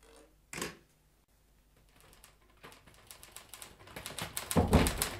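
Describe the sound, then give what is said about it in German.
Typewriter keys clatter: one isolated thump, then a run of many quick mechanical clicks that grows louder and denser toward the end, with no voices. “Sie haben eine Schreibmaschine gefunden? Die habe ich mir aus Mr. Napiers Büro geholt.”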